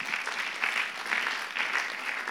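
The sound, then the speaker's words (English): Audience applause at a Christian worship gathering: dense, steady clapping at moderate level, swelling slightly in soft repeated surges, with no voices over it. “Hey, could you give you guys a massive round of applause?”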